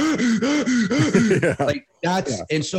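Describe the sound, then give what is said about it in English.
A voice imitates panicked, rapid chest breathing, like someone running from a bear: a fast run of many short, voiced, gasping breaths, a brief gap, then a few more quick breathy huffs. “the only reason that your body would use chest breathing in the past is under high intensity panic situations. Like that is like, I am running from a bear and I'm just like,”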